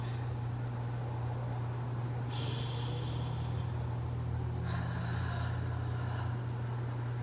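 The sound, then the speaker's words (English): Deep breathing in and out during a sage-smudging meditation: two slow, soft breathy hisses rise and fade over a steady low electrical hum, with no talk. “While I'm taking deep breaths to breathe in and out the sage.”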